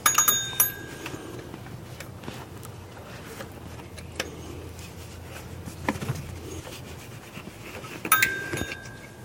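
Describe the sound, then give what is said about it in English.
Scattered metallic clicks, clinks and scrapes as a wrench tightens four fan bolts, mostly faint with a few sharper knocks at the start and near the end. “Now it's time to tighten them down with the wrench, or with the spanner, if you will.”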